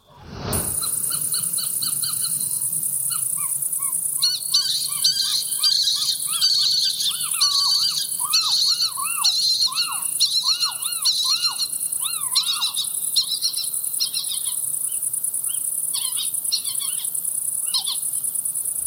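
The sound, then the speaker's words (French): A family of little owls calls at night: many short, repeated chirping and mewing calls come in quick series over a steady, high insect chirr that runs through the whole recording. “Une famille de chevêches d'Athéna, ça peut, être très bruyant.”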